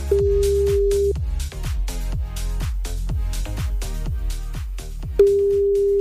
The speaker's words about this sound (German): Und wenn es jetzt irgendwo bimmelt, dann geht bitte richtig ran.